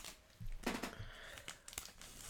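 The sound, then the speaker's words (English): Crinkling and tearing of wrapping as a package of shortbread cookies is opened: soft, irregular plastic rustles with a few sharper rips, all fairly faint. “So it's a shortbread cookie. It kind of looks like the shortbread cookie from the Girl Scouts, right? Mm-hmm. Kind of like the same vibe. Yeah. So I'm going to open it up, and we'll each take a cookie and eat it.”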